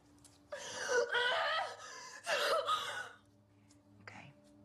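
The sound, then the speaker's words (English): A woman crying, with shaky, gasping, voiced sobs in two long bursts and then a short catching breath in the quiet that follows. “Then stop crying.”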